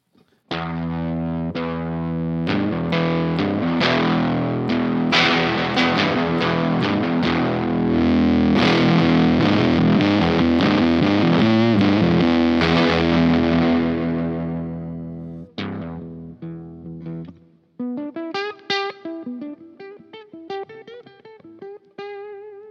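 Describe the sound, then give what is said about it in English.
A 1970s Shaftesbury Duo Fuzz pedal drives an electric guitar through about fifteen seconds of loud, thick, sustained fuzzy chords, then a quieter run of separate picked notes that fades. “So I've got like an old, this is an old 70s thing called a duo fuzz. Anybody heard of a Shaftesbury duo fuzz or anything like that? Well, this is the sound of it anyway.”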